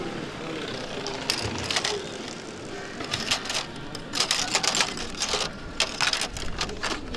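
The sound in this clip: Light clicking and rattling as pink, yellow, blue and green cards with metal clips, meant to fasten onto a bicycle's rear wheel, are handled; many irregular crisp clicks over a constant hiss.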